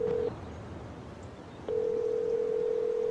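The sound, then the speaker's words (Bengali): A telephone line tone sounds as a call connects: a steady single-pitched hum that cuts out briefly, then returns and holds evenly to the end, with no voices. “প্রায় 15 minute অপেক্ষা করার পর শেষে ফোনটা connect করতে পারল ডান্সমোর।”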